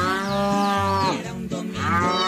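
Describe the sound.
Cattle mooing on a farm at dawn: a few long, loud, richly harmonic moos heard alone, with steady low bellowing tones.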